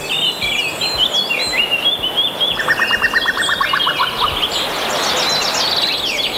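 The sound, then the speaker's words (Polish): An adult female common cuckoo calls near Prague in June with a rapid bubbling series of pulsed notes. Other high, thin chirping birdsong runs throughout at moderate loudness. “Posłuchajmy teraz dźwięku kukułki nagranej i opublikowanej na stronie Xenocanto przez użytkownika o nazwie Latal.”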